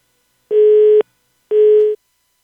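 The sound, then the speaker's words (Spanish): Telephone busy signal after a dropped call: two identical mid-pitched steady beeps, each about half a second long and spaced evenly, with silence between them. “Se cayó la llamada.”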